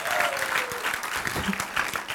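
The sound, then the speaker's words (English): A church audience claps during a sermon, with dense, even clapping that holds at a steady level for the whole clip. “I mean, let's just roar even if you don't want to. Let's clap and celebrate our God for a moment.”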